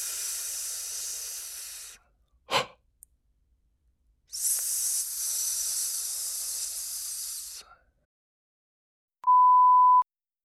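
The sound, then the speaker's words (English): Long hissing 's' breathed out through the teeth as a breath-control exercise: two steady, sustained hisses separated by a short sharp click, followed by a brief pure beep after a silence. “Let's try all this now, releasing the air to the s sound. I'll demonstrate.”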